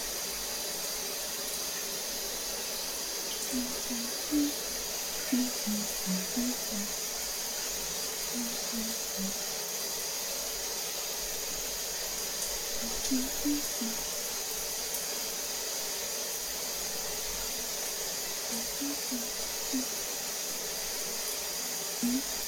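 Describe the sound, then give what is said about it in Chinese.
Shower water runs in a steady, even hiss while someone bathes, with faint low voice sounds now and then underneath. “洗个澡，好好放松一下，一会儿还得给他做饭呢。好舒服啊！”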